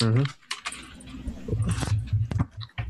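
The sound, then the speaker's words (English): Typing on a computer keyboard makes a few quick, uneven key clicks and taps. A brief stretch of talk comes just before them. “As I type these up.”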